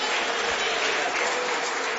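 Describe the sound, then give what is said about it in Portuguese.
Church audience applauding to welcome a pastor, a loud, dense and continuous wash of many hands clapping that holds steady throughout. “Vamos receber o servo de Deus com palmas que glorificam e exaltam o nome de Jesus.”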